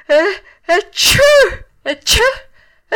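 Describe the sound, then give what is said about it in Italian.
A voice acts out a run of sneezes for a character in a spoken story, giving several loud, strongly voiced bursts separated by short gaps, each one harsh and breathy with a rising and breaking vocal tone. “E fece altri tre starnuti.”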